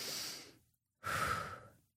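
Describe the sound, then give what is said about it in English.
A deep breath: two soft, airy breath sounds separated by a short silence, each swelling and then fading, quiet and with no other sound. “His shoulders relax. He takes a deep breath.”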